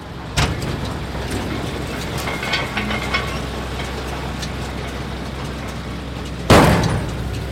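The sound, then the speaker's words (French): A baler at work baling hemp in a farm field gives off a continuous low mechanical rumble throughout. Two sharp, loud thumps stand out, one near the start and one near the end. “Et cette année, il y a eu du chanvre dessus. donc là, on est au moment de la mise en balle, c'est-à-dire l'étape finale en fait de la partie agricole.”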